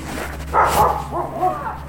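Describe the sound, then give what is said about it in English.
A husky dog barking, a few short, sharp barks with a whiny, tonal edge, heard over a steady low hum. “He's barking at me, sorry.”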